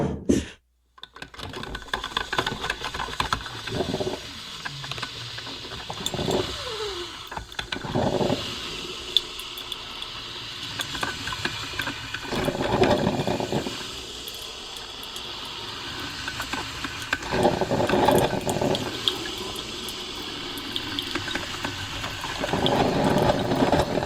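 A coffee machine makes coffee, with whirring pump and hissing steam in several uneven bursts over a low hum, broken by scattered clicks and clatter.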